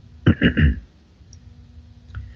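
Computer keyboard keys clicking as a number is typed into Skype: a quick burst of three crisp clicks, then a pause and one faint tap near the end.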